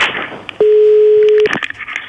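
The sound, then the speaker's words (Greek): A single steady telephone tone sounds as a call is placed to a contest winner. It holds at an even pitch for just under a second, with brief noisy sounds and faint voices before and after. “Παίρνεις τηλέφωνο.”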